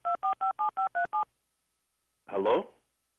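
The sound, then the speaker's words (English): Telephone keypad tones from someone pressing a number: seven short, evenly spaced touch-tone beeps, then a pause and one brief, louder, noisy burst. “I don't know what that was. Somebody must have hit a number or something.”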